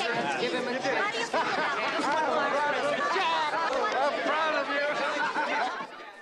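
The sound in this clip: A courtroom crowd bursts into chatter after a not guilty verdict, with many overlapping voices forming a steady, busy babble that fades slightly at the end.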